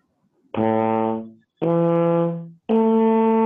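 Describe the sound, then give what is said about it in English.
Trombone notes played with separate tongued attacks instead of a lip slur: three loud, sustained brass tones, each starting cleanly and separated by short silences, stepping upward across partials in first position. “it's different from if we were just to articulate it, which would sound like this.”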